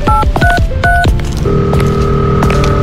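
A phone number being dialled, a rapid run of short keypad beeps at shifting pitches, followed by a steady electronic tone that holds loudly to the end.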